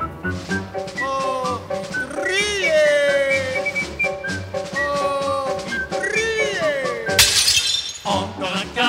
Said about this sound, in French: Encore un carreau cassé, v'là le vitrier passé.